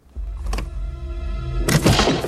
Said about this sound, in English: He advances on a set of double doors. He turns a doorknob.